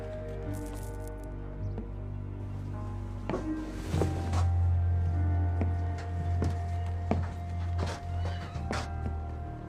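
Hoofbeats of a horse carrying an approaching rider sound as a regular series of sharp thuds over a steady low drone.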